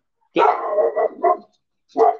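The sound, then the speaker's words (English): A dog barks in a few short, loud bursts: a longer run of barks followed by a brief pause and then one more bark, with nothing else heard. “sorry, my dog.”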